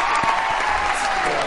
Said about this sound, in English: That's what I'm sure the Alamo in Austin sounded like tonight, with everyone cheering like crazy.